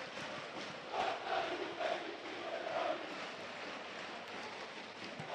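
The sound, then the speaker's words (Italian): Juventus fans chant in a football stadium. A faint, continuous crowd roar carries short sung phrases that swell at intervals. “tornano a farsi sentire i tifosi della Juve che avevano perso un po' di voce.”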